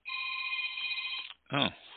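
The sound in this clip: A telephone rings with one long, steady electronic trill lasting over a second, then falls silent, followed by a brief moment of a voice speaking.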